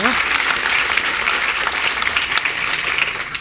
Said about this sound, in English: So please just join me in giving her another resounding warm welcome to Edinburgh.